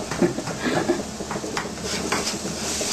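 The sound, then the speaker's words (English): A utensil stirs flour into other ingredients in a pan, making a steady scraping rustle with light clinks of metal. The sound is moderately loud and continuous throughout. “Like 1 tablespoon of flour. Mix it with the ingredient inside the pan.”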